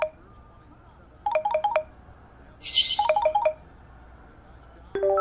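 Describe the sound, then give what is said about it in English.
A call ringtone sounds as a DJ is dialled: two short bursts of quick, bright melodic tones, separated by a pause, then a new tone beginning right at the end. “And then at some point, they dial up DJ D-Nice.”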